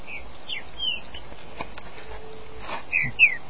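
A caged trinca-ferro (green-winged saltator) songbird gives short, high chirps, a few scattered calls over steady low background noise, with the last two slightly louder.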